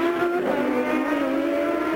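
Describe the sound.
A Champ Car race car's engine drones loudly and steadily, a high, buzzing note that holds for the whole moment with no voices over it.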